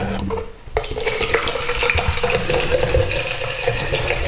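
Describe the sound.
Mineral water is poured into a glass after a brief quieter moment. It runs as a steady, bright, splashy stream for several seconds with no talk.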